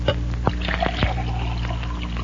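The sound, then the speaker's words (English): Liquid poured from one drinking glass into another, a soft trickling gurgle with a few brief clinks of glass early on, moderately quiet over a steady low hum. “I'm going to pour the liquid from this glass into the middle glass of the three empties on the right.”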